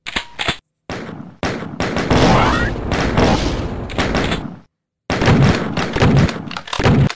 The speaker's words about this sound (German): Nachladen, schießen, also so effizient wie möglich.